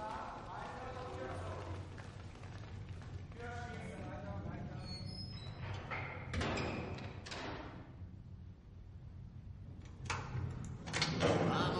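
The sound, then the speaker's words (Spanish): Several soldiers open a door in a Second World War setting, with scrapes and dull thuds alongside footsteps and voices heard throughout. “Varios soldados abren una puerta.”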